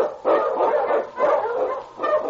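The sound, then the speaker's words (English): Husky sled dogs bark in the snowy Yukon, giving three loud, rough, broad barks at fairly even intervals with no talk. “run, you huskies!”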